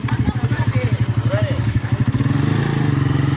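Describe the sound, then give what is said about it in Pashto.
Motorcycle rickshaw engine puttering through a village, a steady, rapid low chug of engine pulses that holds fairly even throughout. “دغه د موټر سایکل چنچې رکشې ګرځي سودا ګرځي په دې کلو کې کنه د ماخیل”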